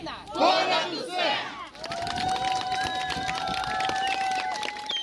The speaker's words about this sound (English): His home village came out and cheered for his return, lining the road and holding Ukrainian flags.